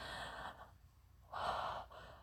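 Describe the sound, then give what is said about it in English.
A quiet, breathy gasp: two soft airy breaths separated by a short pause, the second fuller and slightly louder than the first. “I gasp, almost silently, as I watch this scene play out.”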